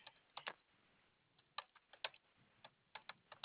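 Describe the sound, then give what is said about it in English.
Typing on a computer keyboard: faint, irregular key clicks in small clusters, some single taps and some quick doubles, with short pauses between bursts and no talk. “Let me type a quick note.”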